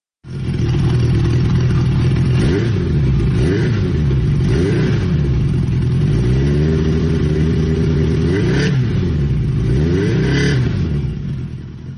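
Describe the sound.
A 1980 CB750 motorcycle engine revs hard and unevenly, its loud growl rising and falling again and again over about twelve seconds, with no talk over it.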